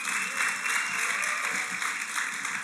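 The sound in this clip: An audience claps in a steady, dense wash of applause, cued during a bilingual Spanish-English talk. The clapping holds at an even level throughout without clear breaks or cheering.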